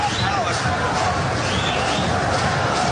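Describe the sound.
Paraguay fans cheering in a football stadium during a match against France: a dense, continuous roar from the crowd that holds steady and loud for the whole stretch.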